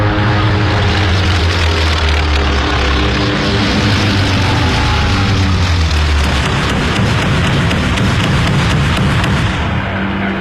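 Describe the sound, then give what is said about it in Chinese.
Loud, continuous propeller roar of a torpedo bomber diving toward an enemy fleet, with a dense rushing noise throughout and the low engine drone changing partway through. “首先起飞的是第8鱼雷轰炸机中队。25岁的乔治·盖伊少尉驾驶飞机朝日军舰队俯冲了下去。”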